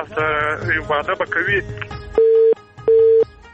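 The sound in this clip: A telephone cut-off tone ends a call dropped when the phone's battery runs low. A voice is heard first, then two long, steady, mid-pitched beeps sound with a short gap between them.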